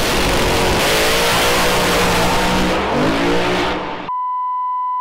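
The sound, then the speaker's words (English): A Holden Monaro race car revs hard on a race track with a loud, sustained engine roar that climbs in pitch. The roar cuts off abruptly and is followed by a steady electronic beep. “this car's gonna smash this track to bits. Mate, that is nuts!”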